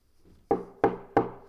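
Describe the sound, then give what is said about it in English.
Three sharp knocks on a door, evenly spaced and each ringing out briefly, with quiet before the first. “If our hearts will only reach out to Him, He's knocking. The question is, will you go to the door today? And will you answer?”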